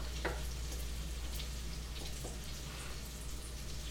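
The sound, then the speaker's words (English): Sauce is stirred in a hot pan, giving a faint, steady sizzle with a few soft scraping touches from the utensil. “I'm going to stir this. Let's taste the sauce.”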